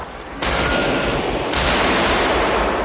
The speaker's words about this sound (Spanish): Vincent dispara. Neil corre con el rubio y dispara el cordón.